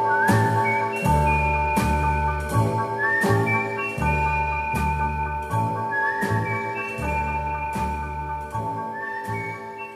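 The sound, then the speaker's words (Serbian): A person whistles an old signal as a clear, high melody over a steady musical backing with repeating low bass beats. “Stanem sam pod prozor tvoj i zviždim tad naš stari znak.”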